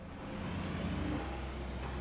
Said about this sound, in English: She stands up from her stoop and watches as the burgundy SUV drives out of the car park and speeds away.